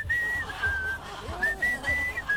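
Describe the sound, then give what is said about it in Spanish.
Someone whistles a short tune in clear, high, pure notes, a few held tones rising and dipping in quick phrases, with no singing. “¿Podrías silbar nomás, no cantes?”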